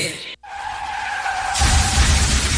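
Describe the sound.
A car skids and crashes in an insurance advert sound effect: a long, steady tire squeal gives way to a loud, rough, sustained crunching roar that continues to the end.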